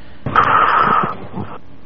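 Heavy breathing straight into a microphone: one long, harsh, rushing breath that lasts over a second, loud at first and then easing off, with no talk.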